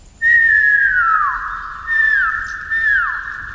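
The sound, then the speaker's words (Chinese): A person whistles three clear, high notes. The first is long and steady and dips at its end, followed by two shorter notes that also slide downward, loud and alone with no talk. “于是阮籍使出看家本领，吹了一下口哨，”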